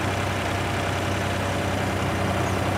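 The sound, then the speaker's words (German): A two-tonne remote-controlled crawler tractor runs its engine with a steady, loud, continuous drone that stays even throughout and has no voices over it. “€100.000 kostet die Raupe und wiegt rund 2 Tonnen. Die Fernsteuerung erleichtert vor allem das Arbeiten in unwegsamem Gelände.”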